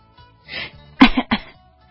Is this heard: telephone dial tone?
no